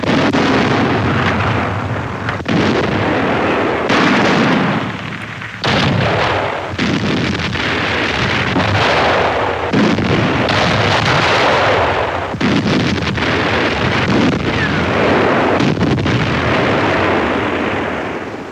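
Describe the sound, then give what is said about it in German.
Anti-aircraft artillery fires on enemy tanks by dense woods on the central front in the battle of Stalingrad: a loud, continuous barrage of overlapping booms and cracking bursts, with many shots and no letup. “Feindliche Panzer, Flakartillerie schlägt sie zurück.”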